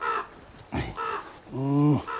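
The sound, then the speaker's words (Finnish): A black crow cawing in a few harsh, raspy calls with short gaps between them, the last call drawn out and loud. “Siellä sinäkin musta lintu vainuot, että milloin pääset nokkasemaan jätkän päästä silmää.”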